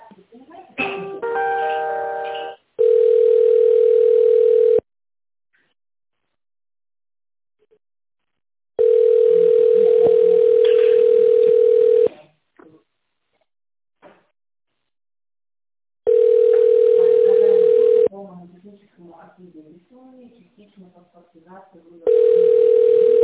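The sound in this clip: Telephone ringback tone while a call is transferred, a steady low tone in several long bursts separated by silent gaps, with brief voices at the start and between the tones.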